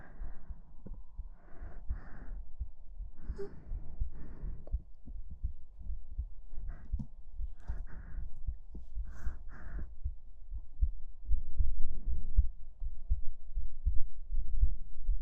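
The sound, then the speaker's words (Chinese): A heartbeat of someone held tightly in a hug thumps in a steady, regular rhythm of many soft, low pulses, alone with no talk. “您说可以听到我的心跳声，”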